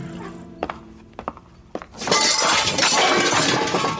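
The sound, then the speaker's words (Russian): A servant's tray of dishes crashes after a collision, with a few dull thuds and knocks first, then a loud, sustained shattering clatter of breaking crockery. “Борис торопится, натыкается на служанку с разносом.”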